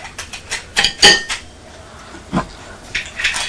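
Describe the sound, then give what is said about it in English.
A pot lid falls off with a scattered run of metallic clatters and clinks. A cluster of sharp, ringing hits comes early, then a few quieter knocks and rattles follow, with no talk. “Has the lid fallen off?”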